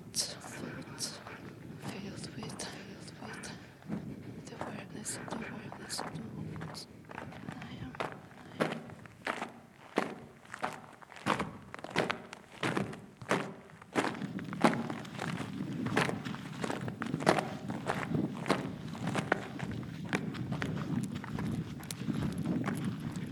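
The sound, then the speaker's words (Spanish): Running footsteps: many sharp, steady impacts in a regular, quick rhythm that carry on through most of the stretch, later joined by a louder, low rumbling undertone. “Corro verso il confine.”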